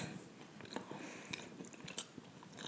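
Someone bites into and chews a chocolate cookie, making a close run of small crisp crunches and soft mouth sounds that stay fairly faint and irregular throughout.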